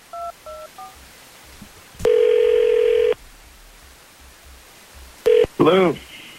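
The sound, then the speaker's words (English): Telephone dialing tones: a few short keypad beeps come first, then a steady tone lasting about a second. Later come another brief tone and a short warbling burst. “So we're going to do our thing. We're going to call him up.”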